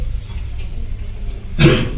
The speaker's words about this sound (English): Coughing, everyone's coughing.